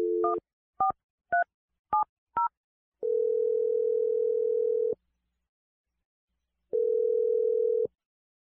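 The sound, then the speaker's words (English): Five short touch-tone beeps from a telephone keypad as a number is dialed, each one crisp and evenly loud. Two long, steady ringing tones follow, separated by a silent pause. “I'm going to dial the number right now.”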